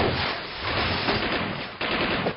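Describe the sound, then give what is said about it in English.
Heavy artillery fire from big coastal guns and 90 millimeter guns forms a dense, loud, continuous rumbling barrage, with a sharp fresh burst near the end. “I think the big berth is up at Fort MacArthur are firing on, sir. And there's 90 millimeters on the Navy field that are swinging around.”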